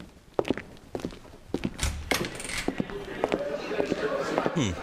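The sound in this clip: Footsteps of a couple walking into a tavern: many uneven, knocking steps on a hard floor, some sharper and louder than others, continuing to the end.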